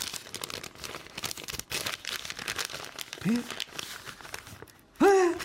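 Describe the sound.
An envelope is torn open and its paper crinkled, giving busy, crackling rustles throughout while people talk.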